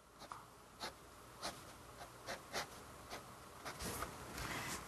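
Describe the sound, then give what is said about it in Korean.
Pen lightly sketching over pencil lines on paper, giving many short, soft scratching strokes at an uneven rhythm, each a brief dry rasp over a quiet background. “연필 스케치한 것까지만 펜으로 스치듯이 한 번에 쭉 말고 여러 번에 나누어서”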